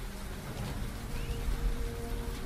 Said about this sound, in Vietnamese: Cơn mưa càng lúc càng dữ dội.